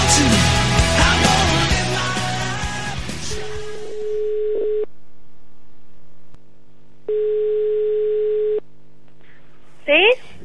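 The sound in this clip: Telephone tones while a call is dialed. A brief stretch of music and voices gives way to a steady, mid-pitched line tone, a few short dialing beeps, then a long, even ringing tone and a quick rising chirp.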